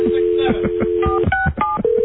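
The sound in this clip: Touch-tone telephone dialing: a steady dial tone gives way to a few quick dual-pitch key beeps, and then another steady tone follows, with talk running underneath.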